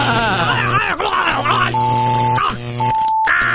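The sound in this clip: Buzzing electric-shock sound effect in a comedy courtroom sketch: a harsh, steady low buzz runs throughout, two short high-pitched beeps sound, and a voice groans and cries out over it.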